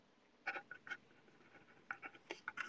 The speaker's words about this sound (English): Okay, I'm just writing it down.